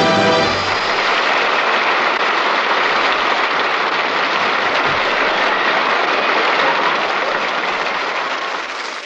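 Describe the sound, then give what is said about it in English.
Studio audience applause: dense, steady clapping from many hands that fills the whole clip at a constant loud level and thins slightly at the very end. “As you hear the applause of our studio audience over the air”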